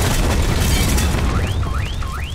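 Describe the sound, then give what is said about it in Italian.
Heavy, bomb-like explosions form a loud, continuous low rumble of booming throughout. Three rising whistle-like tones sound over the rumble near the end. “Cos'è stato? Sembravano bombe!”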